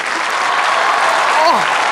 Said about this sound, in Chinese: 来来掌声和尖叫